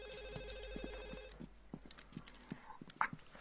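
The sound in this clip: A telephone ringing with a faint electronic, warbling trilled tone that lasts about a second and a half and then stops, followed by a few soft knocks and thumps.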